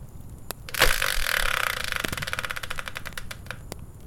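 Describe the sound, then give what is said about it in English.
A wheel-of-fortune style prize spinner turns with a quick run of sharp mechanical clicks after a brief whir. The clicks start fast and dense, then spread out and slow toward the end. No voices are heard. “let's bring in the Wheel of Fortune style spinner, give it a turn, and find out what today's subject will be”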